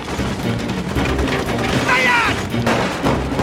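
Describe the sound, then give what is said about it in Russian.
Heavy gunfire on a vehicle column in a film ambush after a mine explodes: dense, loud, continuous crackling and booming shots with no clear breaks. “Перед головной машиной взрывается мина. Со всех сторон по колонне открывают яростный огонь.”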